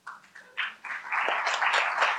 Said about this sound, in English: You clapped, you have to do it.